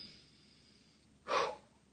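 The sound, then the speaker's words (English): A single deep inhale, a short breathy rush lasting about a third of a second and rising clearly above a near-silent background, with no talking around it. “I take a breath here, actually.”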